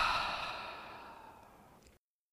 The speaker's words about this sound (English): Take another deep breath in through your nose. And pause. And exhale through your mouth.